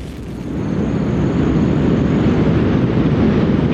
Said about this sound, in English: Liftoff of the mighty Delta IV Heavy rocket with NASA's Parker Solar Probe.